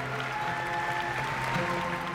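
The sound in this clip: An audience applauds at a ceremony welcoming a governor-elect in an auditorium. The clapping is steady and fairly faint, with a few cheers and no pause.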